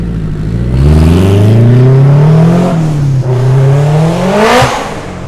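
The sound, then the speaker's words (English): A modified Acura Integra revs hard and drives away. Its loud engine note climbs steadily in pitch, dips briefly as if shifting, then climbs again before easing slightly at the close. “Sounds like pretty beefy Integra. Yeah, actually. That was pretty badass Integra.”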